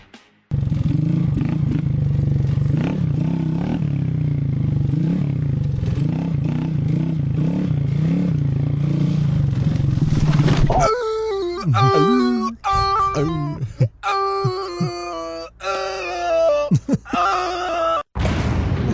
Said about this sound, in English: And this man's embarrassing moment of him falling off his dirt bike while riding in the trails, it was so serene until he fell, has been auto-tuned by somebody out there on the internet.